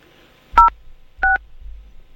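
Two telephone keypad dialing tones on a call to an automated service line: two short, loud, steady beeps separated by a brief pause, with a faint low hum running underneath and no voices.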